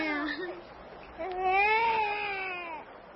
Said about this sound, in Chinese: 孩子一见生人就哭了